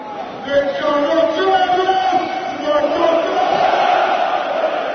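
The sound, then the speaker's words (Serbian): Loud crowd singing and chanting fills the packed Rajko Mitić stadium as Red Star Belgrade fans celebrate the Serbian SuperLiga title after the final-round win over Voždovac; the sound holds steady and unbroken throughout. “Da čujemo deo atmosfere sa prepunog stadiona Rajko Mitić.”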